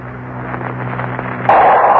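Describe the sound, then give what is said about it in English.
A volcanic eruption explosion effect for the blast of Vesuvius over Pompeii: a steady low rumbling roar that suddenly surges into a louder, brighter blast of hissing roar partway through and keeps going. “Vesuvius has exploded. Pompeii has disappeared under an inferno of flaming rock and a hail of scalding, fiery steam.”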